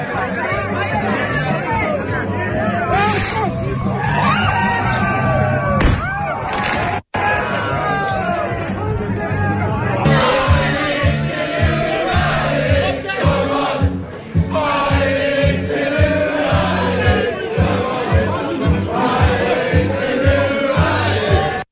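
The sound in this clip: Students singing along loudly together at a street party, a crowd of voices chanting over music, with a rhythmic beat that becomes fuller and more driving partway through.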